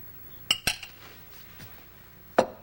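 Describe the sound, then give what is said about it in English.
A spoon clinks against a soup bowl in a kitchen, a few sharp, bright metallic taps spaced irregularly, with one fainter touch between them over a quiet background. “eats a bowl of soup in the kitchen.”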